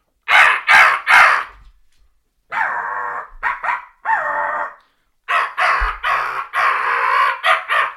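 A turkey hunter's crow call gives loud, harsh caws in bursts: a quick run of three, then shorter and longer caws, ending in a rapid string of calls.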